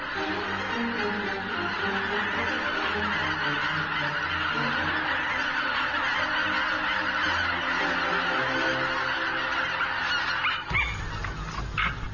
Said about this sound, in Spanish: En su máximo apogeo, las bandadas de gansos llegan a los 60.000 individuos.